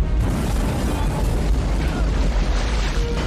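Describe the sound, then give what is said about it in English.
Helicopters explode in an action film, a loud, continuous roar of blasts and rumbling with no clear break between impacts. “Helicopters are exploding.”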